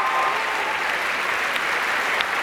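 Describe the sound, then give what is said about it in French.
Warm, steady applause from a concert audience, cheering the orchestra's percussion section after a performance, heard as a dense, even wash of clapping hands with no voices. “Percussions à présent qui sont chaleureusement applaudies.”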